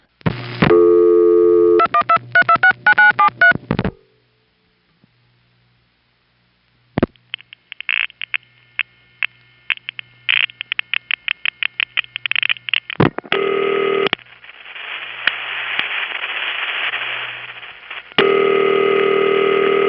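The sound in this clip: A telephone rings on an exchange line and is tripped early, followed by a silent gap. Then a rapid run of many sharp clicks from automatic testing equipment gives way to steady buzzing hums and tones.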